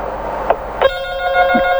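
A telephone rings with an incoming listener call. After a couple of short clicks, a steady, buzzing ring tone sets in and holds to the end.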